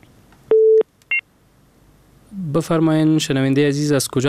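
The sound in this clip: Telephone tones sound on a call-in line after a caller's connection drops: one steady low tone, then a short higher beep, followed by a person talking.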